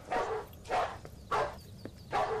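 A dog barking near a dog cage: four loud, full barks at an even, regular pace, with quiet background noise between them.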